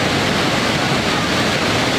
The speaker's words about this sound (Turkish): Muhteşem bir manzara. Muhteşem bir manzara. Hayatımda gördüğüm en güzel şelale.